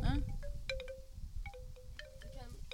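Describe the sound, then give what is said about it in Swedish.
A wind chime rings with many bright, metallic strikes scattered irregularly, each leaving a clear ringing tone that fades quickly. Soft low rumble sits underneath. “Hör, det här är Natashas vindspel.”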